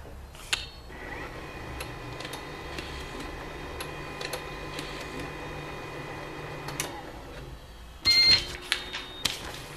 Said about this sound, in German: Ja gut, ich druck's am besten mal aus.